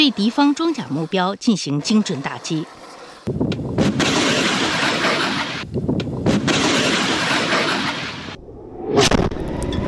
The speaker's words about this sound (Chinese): 火箭炮分队采用交替射击的方式，对远距离目标实施火力覆盖。